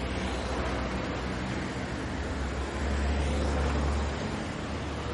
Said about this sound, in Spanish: Varios vehículos circulan por la calzada de doble sentido.